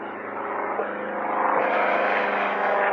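A small private single-engine low-wing airplane flying over, its broad droning engine noise growing louder partway through and then holding steady, with no voices.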